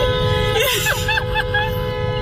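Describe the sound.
A car horn blares in a steady, sustained tone through the whole clip while a person talks over it, with low traffic rumble underneath.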